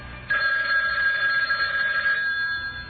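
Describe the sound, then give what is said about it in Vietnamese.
A telephone rings as a call is placed: one steady electronic ring tone begins abruptly and holds for about two seconds, then drops away, with nothing else heard. “Nàng chủ động gọi dây cho Nguyên.”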